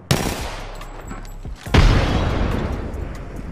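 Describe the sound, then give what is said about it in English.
Frag grenade going off in the Apex Legends video game during a solo ranked match: a sharp crack, then a louder, deeper blast with a long rumbling tail that slowly fades. “Frag grenade sent.”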